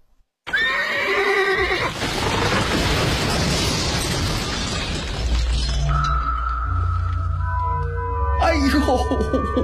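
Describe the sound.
A horse gives a loud, high whinny as it is ridden along a road. A long, dense, noisy crash-like burst follows, then some sustained tonal sound effects near the end.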